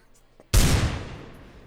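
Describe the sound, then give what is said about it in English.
A single gunshot in a video game: a sudden loud blast with a long fading tail, following a few faint, quiet sounds. “All right, so I'm gonna try shooting Gerald again real quick.”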